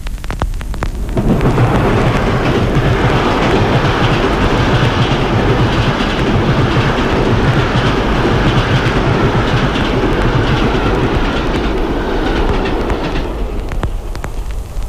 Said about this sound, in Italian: Con la nuova tecnica stereofonica potrà ora ascoltare lo stesso rumore come viene da lei realmente percepito quando un treno le passa davanti.